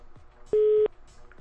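Telephone line tone while placing a call: a single steady, mid-pitched beep lasts about a third of a second between faint clicks and low background noise.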